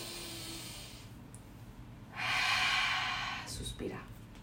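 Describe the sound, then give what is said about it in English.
Deep breathing, a slow inhale and exhale: one long, loud airy breath stands out over a soft background hiss, followed by a shorter, fainter breath. “I'm just gonna breathe, you know?”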